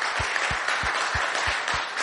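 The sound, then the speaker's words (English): Standing applause from an audience honouring the mothers in the house: a thick, steady wash of clapping with evenly spaced low thumps beating underneath throughout. “Standing applause. Worthy of it.”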